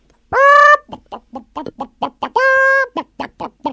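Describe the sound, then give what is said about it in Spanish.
A hen clucks loudly. Two drawn-out, nasal squawks are each followed by a run of short, rapid clucks. “¡Es un gallina! ¡Gallina! ¡Un gallinita! ¡Gallina!”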